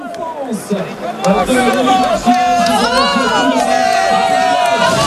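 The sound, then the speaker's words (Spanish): Spectators crowd the podium of a cycling race as the day's most combative rider comes through, a dense, steady wash of overlapping chatter and cheering that holds at an even, fairly loud level throughout. “Se oye más al público que a él abrazándose con sus auxiliares.”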